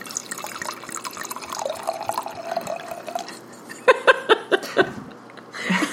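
Wine poured into a glass: a steady liquid trickle followed by a quick run of about five bright drips and glugs, then a brief splash of pouring at the end.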